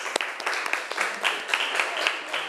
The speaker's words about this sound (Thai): ปรบมือให้มิมี่หน่อยค่ะ